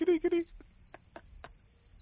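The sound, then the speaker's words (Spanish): Crickets chirp in a steady, high, unbroken trill that runs throughout, joined by a few short clicks; brief voiced sounds come at the very start. “Son cojonudamente cantadores. Pero es que ahora no venían mucho cuento los grillos.”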